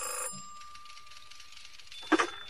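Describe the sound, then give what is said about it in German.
A telephone bell rings in short, fairly faint bursts, one brief ring at the start and a louder one near the end, with a quiet gap between and no talk. “wurde ich gegen 22:30 aus dem Atlantik angerufen.”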